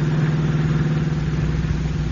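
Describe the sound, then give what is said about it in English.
A car engine drones as the car rolls down a steep hill on a narrow country road at night, a continuous low hum with an even, unbroken loudness throughout. “the car swings into an old, little-used highway and speeds into the country. Turning into a narrow road, it is now rolling down a steep hill”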